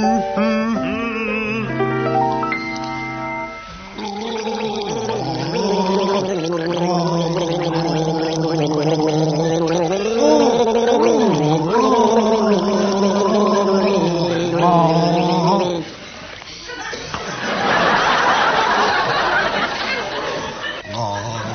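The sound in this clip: Two men gargling a song with water, bubbling, warbling tones tracing a melody in rough harmony, loud and sustained, followed by a burst of laughter near the end.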